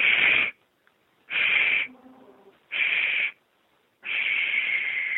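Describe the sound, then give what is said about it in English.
Shushing exhales through the mouth as part of a breathing exercise, after an inhale through the nose: three short, sharp hissing 'sh' bursts in a steady rhythm, then a fourth, longer one that lets the breath out fully. “So three partial sh sounds, and the final one just extends the breath out, and then you start over.”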